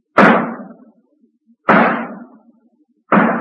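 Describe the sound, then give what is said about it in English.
Three sharp rifle cracks at a fairground shooting gallery where a quarter buys a shot. Each is a sudden loud report with a short decaying tail, spaced roughly one and a half seconds apart, with no voices. “There's the rifle. Take your shot.”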